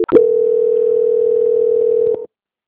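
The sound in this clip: A telephone call transfer tone plays as one steady, mid-pitched electronic hum. It holds for about two seconds alone and then cuts off.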